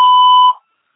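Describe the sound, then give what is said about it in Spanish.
A voicemail beep tone sounds as a single steady, loud electronic note lasting about half a second, cutting off abruptly into silence. “Usted puede dejar un mensaje después del tono.”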